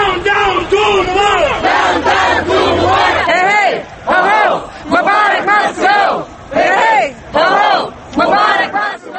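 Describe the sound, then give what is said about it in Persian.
A large protest crowd in Egypt chants against Hosni Mubarak's regime. Loud, rhythmic shouted phrases come in repeated surges, with short dips between them. “این نوار از اعتراضهای علیه رژیم حسنی مبارک در مصر است”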